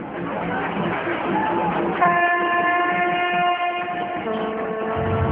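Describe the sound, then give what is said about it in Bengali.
Children blow vuvuzelas amid a noisy, boisterous crowd: steady buzzing horn tones start partway through and hold over a dense, continuous crowd din. “ছেলে মেয়েরা vuvuzela বাজাচ্ছে আর হই হুল্লোড় করছে।”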